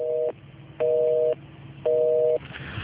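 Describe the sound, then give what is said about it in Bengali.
Telephone busy tone heard after a call line drops: a steady, even-pitched beep that repeats in three regular pulses separated by short gaps of low background hiss. “অনেকেই join করেছেন এবং গল্পের এমন একটা মুহূর্তে লাইনটা আবারও কেটে গেল।”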